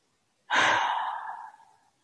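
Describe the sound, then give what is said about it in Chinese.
A deep exhale after a held breath during a guided meditation breathing exercise: one long, breathy release that starts strong and fades gradually over more than a second, alone. “最后一次吸气， hold 住，一二三，吐气，”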